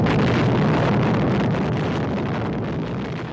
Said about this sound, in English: In July 1946, the Navy exploded 2 nuclear bombs in Bikini Lagoon in the Marshall Islands, part of something called Operation Crossroads.